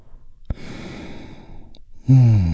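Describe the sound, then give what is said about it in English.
A deep breath in and its release during a guided relaxation exercise: a soft click, then a long airy inhale, followed by a louder, voiced sighing exhale at the end. “We do that by taking a big, deep, healing breath all together. Here we go. And release.”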